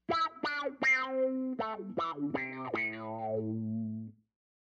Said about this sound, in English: Filter effects could be things like wah or things like an envelope filter. I really love the sounds of envelope filter. So if it does something like this